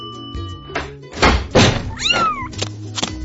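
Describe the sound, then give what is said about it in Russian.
A kitten's single high meow that bends upward and then falls, arriving after a few dull thumps and knocks, with more thuds following. “Ой, кто это? It's a kitten.”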